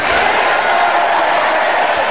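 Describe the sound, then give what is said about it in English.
A conference audience gives Jeremy Corbyn a standing ovation after his speech: a thick, unbroken wash of clapping and crowd noise that holds at one steady loudness throughout. “Well, another standing ovation and applause for Corbyn.”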